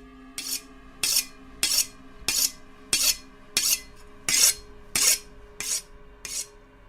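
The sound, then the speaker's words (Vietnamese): Rhythmic scraping strokes of a knife blade being sharpened: ten evenly spaced rasping swipes about half a second apart, each with a faint metallic ring, moderately loud with no voices. “Hắn bắt đầu mài con dao cho thật sắc.”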